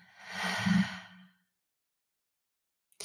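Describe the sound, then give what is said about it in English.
A single slow, deep breath during a guided gratitude exercise, soft and airy, swelling then fading over about a second before silence. “take one deep breath together. So breath in and out.”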